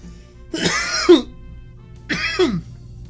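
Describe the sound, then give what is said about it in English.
Two harsh, raspy coughing fits burst out while someone takes a dab hit, each rough and throaty and closing with a lower grunting catch, separated by a short quiet gap. “Mid fucking dab cough too.”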